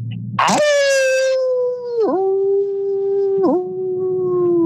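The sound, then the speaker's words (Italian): A man imitates a dog howl: one long, sustained, wavering wail that starts with a short rough burst. The tone holds steady, with two brief dips in pitch partway through, and it sounds alone without talk. “E adesso sentite il vostro bello allulato.”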